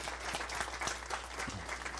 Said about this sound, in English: let's clap for that